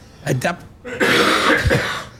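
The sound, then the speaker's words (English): A rough, raspy cough, close to throat clearing, breaks into a conversation. It comes as one sustained harsh burst after a moment of speech. “Sorry, I coughed over you then, sorry.”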